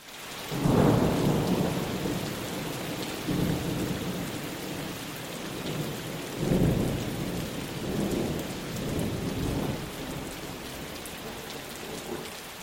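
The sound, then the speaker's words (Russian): A heavy rain downpour roars as a steady, dense hiss, broken by deep rolls of thunder that swell and fade several times. No voices are heard. “Дождь пошел сильнее и, наконец, обратился в ливень, который лил, как из ведра”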